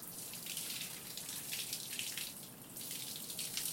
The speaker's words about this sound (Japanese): 頭皮は少しマッサージしながら流して。